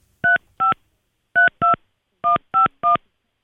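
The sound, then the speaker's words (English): Telephone keypad dialing tones: seven short, clear beeps at steady pitch, grouped as two pairs and then a run of three, with a further tone cut off at the very end and no talk. “It was my fault. I was dialing it wrong.”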